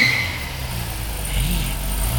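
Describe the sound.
A car pulling away late at night: a steady, moderately loud engine hum with a low rumble underneath, going on without a break and without voices.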